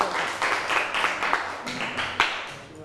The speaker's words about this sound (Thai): okay everyone welcome your friend here ปรบมือหน่อยค่ะ